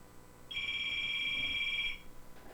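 A telephone rings for an incoming call on a radio show: one steady, high electronic ring tone lasting about a second and a half, faint against a quiet background.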